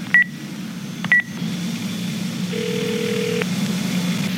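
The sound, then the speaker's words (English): Telephone keypad tones as a number is dialed on a phone: two short, bright beeps about a second apart, then a longer, steady, lower tone lasting just under a second, over a faint constant hum with no voices. “Let me call the number back just to be sure if it's really who I think it is.”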